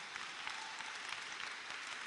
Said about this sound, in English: Clap your hands if you're clapping.